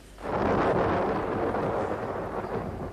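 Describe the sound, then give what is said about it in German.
Thunder from a thunderstorm, a deep rolling rumble that swells quickly and then sustains for a few seconds, easing slightly toward the end. “Ein Gewitter. Schnell, kommen Sie zum Fenster.”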